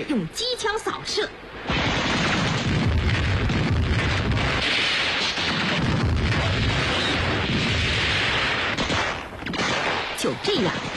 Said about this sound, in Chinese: 先向前面进了村的伪军队伍里扔出几颗手榴弹，接着一颗颗手榴弹又在后面还没进村的鬼子队伍里炸开了。